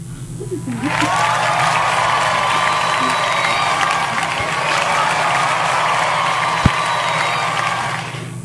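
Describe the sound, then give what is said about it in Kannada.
A crowd applauds and cheers for listeners who answered a quiz correctly. The dense clapping starts after a brief pause and stays loud and steady until the end. “ಸರಿಯಾದ ಉತ್ತರವನ್ನ ನೀಡಿದ ನಮ್ಮೆಲ್ಲ ಕೇಳುಗರಿಗೆ ಪ್ರೀತಿಯ ಚಪ್ಪಾಳೆ.”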